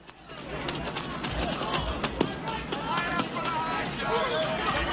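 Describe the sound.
A runner's footsteps pound around a sunny track in a quick, uneven patter of soft thuds over a steady, noisy background.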